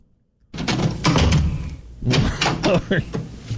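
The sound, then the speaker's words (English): A door being opened: after a brief silence, a few loud knocking and rattling bursts follow one another, with the sound continuing in uneven thumps to the end. “Open the door there”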